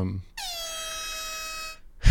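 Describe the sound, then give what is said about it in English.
An air horn sounds in one loud, sustained blast of steady pitch lasting over a second, with a brief gap before it and a noisy cutoff after it. “and there's the air horn sound.”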